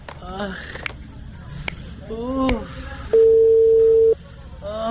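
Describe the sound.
A telephone call rings out while a rabies vaccine official is being called: one steady, loud electronic tone lasting about a second, set against a faint background of scattered clicks and brief warbling sounds.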